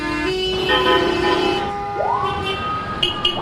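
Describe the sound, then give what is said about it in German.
Loud, chaotic street traffic on a crowded multi-lane highway in Cairo: overlapping car horns hold steady tones, a rising siren-like wail cuts in, and a constant engine rumble runs underneath. “Ohrenbetäubendes Chaos. Abgaswolken, die bleiern über dem Nil hängen. Willkommen in Kairo. Um 10 Uhr morgens geht gar nichts mehr. Eine dreispurige Schnellstraße wird kurzerhand zu einer sechsspurigen erklärt.”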